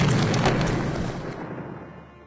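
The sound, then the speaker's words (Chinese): A bomb explodes after being hit by a gunshot, a broad, heavy roar that starts at full force. It rumbles on and slowly fades, with the bright upper hiss dying away first. “强大的爆炸让沉默都能感受到身后传来的剧烈气浪。”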